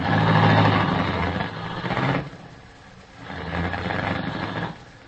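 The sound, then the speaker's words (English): Car engine rumbling as the vehicle drives up a long driveway to a mansion entrance. The low, steady drone swells twice, loud at first, then dips and rises again, with no talk. “I drove up the long driveway and stopped at the Walker Mansion entrance.”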